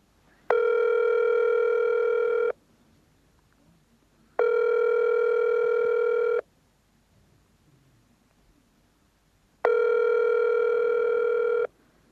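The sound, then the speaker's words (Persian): Ringback tone of an outgoing phone call: three steady, buzzy electronic tones, each about two seconds long, separated by even pauses of similar length, with no voices. “میخوایم به پدر جانم با تماس شم و میشه شما هم بشنوین که با پدر جانم تماس میگیرم و جوی احوالشان میشم.”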